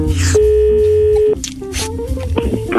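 Ringback tone of an outgoing telephone call: one steady, mid-pitched electronic tone lasting about a second, then cutting off, amid other background sounds.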